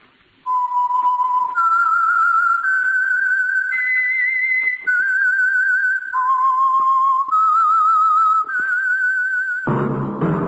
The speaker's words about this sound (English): That whistle is your signal for the Signal Oil program, The Whistler